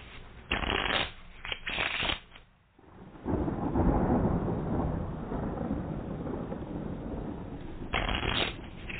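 Playing cards being shuffled for a solo card game give several quick riffling bursts, then one long rustling whir that fades slowly, and a final short riffle near the end.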